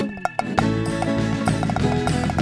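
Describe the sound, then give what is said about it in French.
Rapid tap-dance clicks from a cartoon millipede character's solo, many sharp taps in a quick, busy rhythm over steady sustained tones, the taps clear and fairly loud throughout. “Monsieur Mipat, mais qu'est-ce que vous faites? Un solo de claquettes.”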